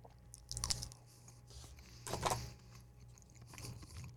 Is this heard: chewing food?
yes